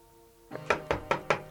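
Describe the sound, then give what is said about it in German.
Knocking on a students' room door in a girls' boarding school. A light tap is followed by four firm, evenly spaced knocks, with no voices. “Am Nachmittag klopften sie bei Jenny, Fiss und Carlotta an, in deren Zimmer auch Claudia wohnen sollte.”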